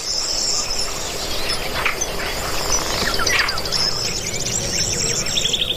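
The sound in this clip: A kingfisher family with fledged young calling: thin, high chirps and brief trills recur over a constant high insect-like buzz and steady outdoor hiss.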